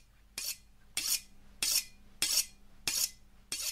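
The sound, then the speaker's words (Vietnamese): Knife sharpened on a whetstone set on a coffin lid: six evenly spaced, bright scraping strokes, each short and hissy, with no voices. “Thím mài dao xèn xoẹt xèn xoẹt.”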